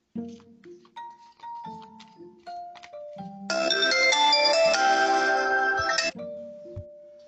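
A melodic ringtone sounds for an incoming phone call. A short run of clear, stepwise descending tones leads into a louder, dense chiming melody lasting a few seconds, then ends on a single sustained tone.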